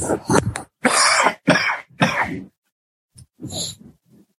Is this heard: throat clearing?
yes

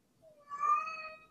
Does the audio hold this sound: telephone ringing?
no

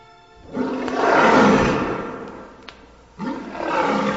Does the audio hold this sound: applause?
no

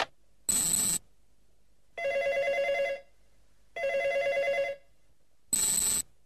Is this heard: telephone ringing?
yes

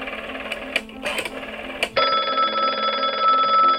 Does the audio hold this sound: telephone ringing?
yes

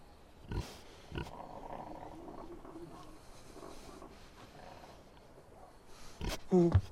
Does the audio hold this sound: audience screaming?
no

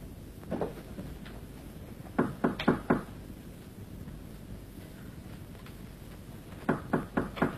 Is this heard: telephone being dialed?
no

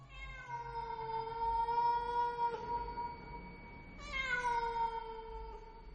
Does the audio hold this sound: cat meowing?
yes

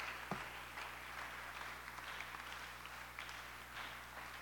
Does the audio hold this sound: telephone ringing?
no

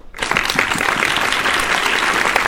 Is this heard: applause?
yes

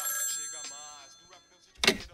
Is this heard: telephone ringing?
yes

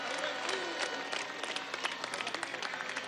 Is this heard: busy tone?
no

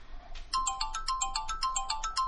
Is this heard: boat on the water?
no

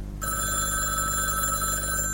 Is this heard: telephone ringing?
yes

